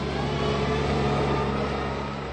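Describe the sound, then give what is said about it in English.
A dump truck's engine rumbles steadily as it hauls rocks along a dirt road between a pit and a backhoe, a continuous loud drone with a low hum and no clear break or talk. “every so often we have to step off to the side because a dump truck is coming through with rocks that it's shuttling between a pit and a backhoe operator”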